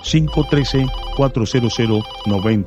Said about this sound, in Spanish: Ya tengo una nueva comunicación. Esta llamada es de Covington. Vamos a agarrar esta llamada.